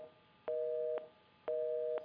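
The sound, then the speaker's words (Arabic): Telephone busy tone after a call drops, two faint, steady beeps of equal length at a single pitch, separated by a short gap over low line hiss. “طيب انقطع اتصال مع حسن من اليمن”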